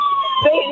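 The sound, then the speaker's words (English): An ambulance siren sounds a brief, loud, steady high-pitched wail. “Wait a minute, ambulance truck is coming. Here they come.”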